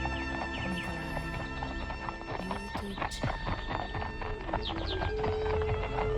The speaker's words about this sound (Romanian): Ia stați! Stați! Opriți armăsarii!